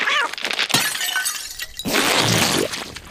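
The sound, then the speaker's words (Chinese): A shell cracking and breaking: a brief sharp crack, then a longer, loud crunching burst of breaking and shattering noise. “我弄破了你的壳。”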